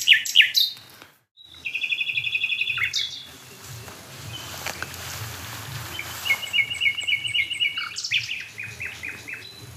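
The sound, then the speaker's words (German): A nightingale sings from a dead oak in a hedge near barns: loud, high whistled trills and rapid repeated chirps in distinct phrases, broken by a short pause early on and a quieter stretch midway. “Die Nachtigall an der toten Eiche in der Hecke”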